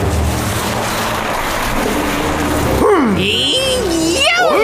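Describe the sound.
A loud, steady engine roar from an accelerating vehicle in an animated children's story, with animated voices coming in over the engine for the second half.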